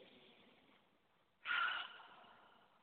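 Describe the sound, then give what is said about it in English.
A single deep breath taken during a guided prayer and meditation: a soft, airy hiss that swells suddenly and then fades. It is quiet overall, with faint breathing before it and no talk. “Now breathe.”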